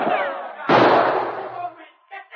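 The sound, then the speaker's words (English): A single sharp gunshot, a quick shot that smashes a carbine being levelled at a charging dog, bursts loudly and decays over about a second, with a voice just before it. “Sergeant Preston's quick shot smashed the carbine Travis leveled at the charging dog.”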